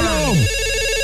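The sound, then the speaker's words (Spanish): An incoming call rings on a call-in telephone line: a bright electronic ringtone that sweeps downward in pitch, then settles into a steady, sustained tone for the rest of the moment. “Son las líneas telefónicas en cabina con Laura G. Recibimos la primera llamada.”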